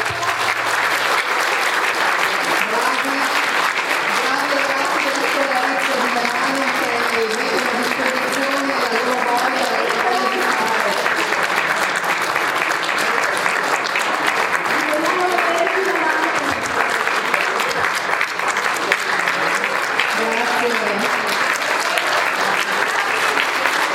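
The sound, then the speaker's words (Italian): Audience applause at a poetry slam, greeting school students from Merano: sustained, loud clapping from a large crowd lasts the whole stretch without letting up, and voices can be heard within it. “e con questo facciamo anche una prova di applauso, i ragazzi della scuola Rizzi Merano.”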